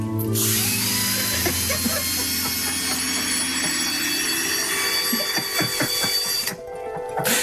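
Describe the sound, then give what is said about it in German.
Steady whirring of a cordless screwdriver drill running at a constant speed. It makes a high mechanical whine over a low buzzing hum, holds loud and unbroken for several seconds, then cuts off near the end. “Heimwerker, ne? Da ist der Akkuschrauber immer griffbereit.”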